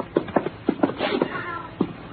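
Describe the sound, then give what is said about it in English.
A black cat meows repeatedly, giving a quick series of short, fairly loud meows and one longer, drawn-out call in the middle, with no talk over them. “Here's your cat.”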